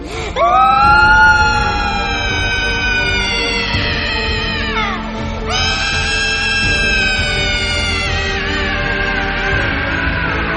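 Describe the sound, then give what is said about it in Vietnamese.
A girl wails and cries in pain in long, loud, high-pitched sustained cries with a wavering tone. One brief break in the middle splits them into two drawn-out wails. “Nghe vậy thì Ngân gào khóc đau đớn.”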